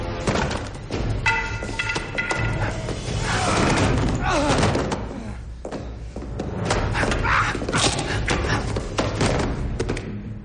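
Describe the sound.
Heavy thuds and slams from a fight scene in a 2008 science-fiction film, where a soldier is thrown to the floor again and again; several dull impacts land within a dense, loud mix with vocal sounds.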